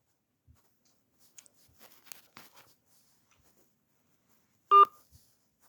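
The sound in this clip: A single telephone keypad tone sounds as an option is chosen in an automated card-payment phone menu: one brief, loud electronic beep after a few faint clicks, with no talk.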